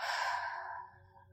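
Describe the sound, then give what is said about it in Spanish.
A single strong, breathy exhale during a meditation breathing exercise: an airy rush that starts loud and gradually fades away over about a second. “Inhala y exhala con fuerza.”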